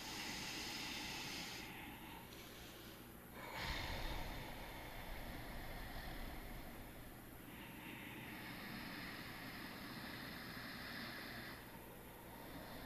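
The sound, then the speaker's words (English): Slow, steady breathing in and out through the nostrils in a calming, cooling breath exercise: long, soft, airy hisses lasting several seconds each, faint and heard alone without talk. “this slow motion breath through the nostrils in and out can really cool the body and calm the mind. So inhaling in.”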